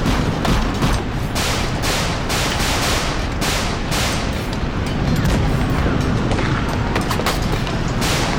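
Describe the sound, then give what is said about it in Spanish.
Heavy gunfire during an attack on ships and their crews, a dense barrage of loud, booming shots and bursts firing in rapid, irregular succession for the whole stretch, with no voices. “¡Disparen a la derecha! ¡Disparen!”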